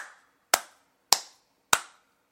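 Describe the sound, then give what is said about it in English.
Slow hand clapping: four sharp claps at an even, deliberate pace, each crack standing alone with a quick decay and nothing else around it. “I was trying to stand, but it didn't work because it's kind of just terrible. But I'm going to continue to applaud.”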